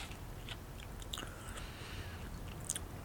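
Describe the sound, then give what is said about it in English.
Faint, wet chewing and crunching as someone eats earwax, with a few soft bites and nobody talking. “I'm trying to eat it, guys. I think it's earwax.”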